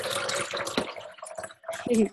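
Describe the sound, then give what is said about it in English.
Tea being poured into a container: a faint trickle and drip of liquid runs under a person talking. “I'm pouring some water. Sorry, that's me. I'm pouring tea into my container”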